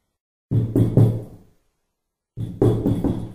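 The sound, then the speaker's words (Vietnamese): A colleague knocks on a door at an office: two groups of three firm, evenly spaced knocks, separated by a pause of under a second. “Một vị đồng nghiệp gõ cửa, cắt ngang việc đi vào cõi thần tiên của hắn.”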